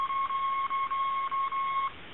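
Morse code tones from squeezed iambic keyer paddles: one steady mid-pitched tone alternating long dahs and short dits in a regular rhythm, with brief gaps between elements and nothing else heard.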